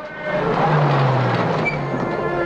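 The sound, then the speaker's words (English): An army truck arriving with troops: a dense, steady engine and road rumble that stays loud and even throughout, with no voices. “a second truck of troops arrives”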